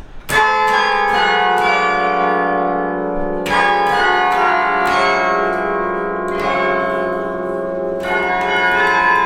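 Carillon bells ring out loudly as a student carillonneur plays an intricate work from a music score at the console, with several rich struck chords whose long, shimmering decays overlap between each new strike.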